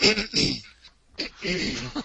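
Someone clears their throat in harsh, raspy bursts, two rough clusters of noisy rasping separated by a short quiet gap, fairly loud and close.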